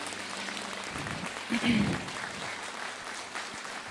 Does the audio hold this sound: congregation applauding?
yes